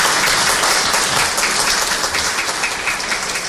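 Applause at an official public presentation, a loud, thick wash of many clapping hands that holds steady and eases slightly toward the end.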